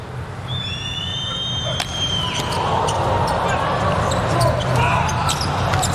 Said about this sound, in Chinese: 对，目前第一局还是一个均势，安德森来发球，